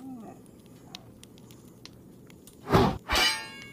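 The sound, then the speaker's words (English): Sword swings being parried in a video game come as two loud, broad striking bursts in quick succession near the end, following a quiet stretch of faint background hiss. “Now, I want you to swing your sword at me. Don't worry, the blade is not sharp.”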